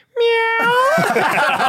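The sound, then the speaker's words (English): A person's voice imitates a cat's meow in one loud, drawn-out harmonic cry. It holds a steady pitch, then rises partway through and trails off into a rougher, breathy tail. “meow”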